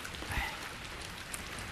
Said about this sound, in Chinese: 你看，下雨天的。